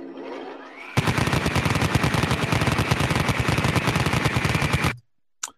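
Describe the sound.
A Vulcan rotary cannon roars in a sound effect, its rapid shots fused into a dense, loud buzzing stream for about four seconds. The firing cuts out abruptly, and a single sharp click follows after a short silence.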